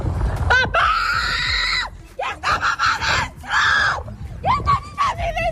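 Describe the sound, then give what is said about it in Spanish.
A woman screams desperately as wildfire flames close in on her house in Villa del Prado: loud, high, strained wails repeat in several anguished bursts, some broken into sobbing gasps. “de una mujer que chilla desesperada viendo cómo las llamas van a alcanzar su casa en Villa del Prado.”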